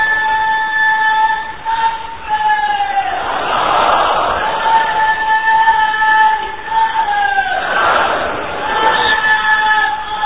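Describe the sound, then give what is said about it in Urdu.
A crowd at a religious gathering loudly chants Inshallah in unison. Two big swells of massed voices surge and fade, with a single voice heard between them. “تو ان مدنی پھولوں پر عمل کرنے کی نیت سے زوردار انشاءاللہ کا نعرہ لگا دیں انشاءاللہ.”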